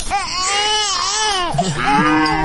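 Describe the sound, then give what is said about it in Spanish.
A newborn baby cries in a sustained, strained wail rich in bright harmonics, imagined in the Bethlehem stable on the night of the Nativity; the cry breaks and drops to a lower, rougher pitch near the end. “Un niño recién nacido llorando, ¿no? Imagino.”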